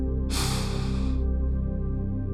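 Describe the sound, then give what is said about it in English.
A single deep breath drawn in during a guided relaxation exercise, a soft airy hiss lasting about a second over gentle sustained music. “Take a deep breath in.”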